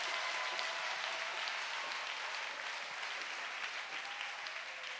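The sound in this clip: Congregation applauding at a prayer ministers' gathering: a faint, dense patter of many hands clapping that runs unbroken and fairly even throughout, with no voices rising over it.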